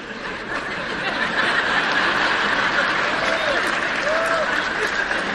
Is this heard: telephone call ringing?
no